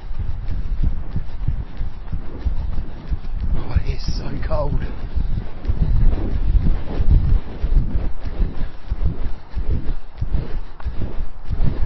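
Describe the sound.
Wind buffets the microphone on an outdoor grass running track during a breezy spring workout, a loud, continuous low rumble that gusts unevenly, with a voice briefly audible.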